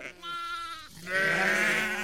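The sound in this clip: Sheep bleating: a wavering bleat is followed after a short gap by a second, louder and longer one with a strained, nasal tone.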